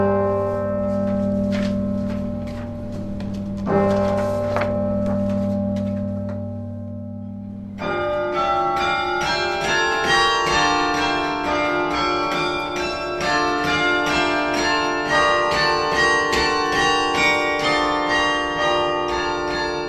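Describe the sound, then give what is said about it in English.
A clock mechanism striking a bell in a carillon: a steady ringing hum with one sharp strike early on, then a loud, rich metallic bell tone bursts in and rings out, lingering to the end. “So every minute here, you'll hear the clock mechanism.”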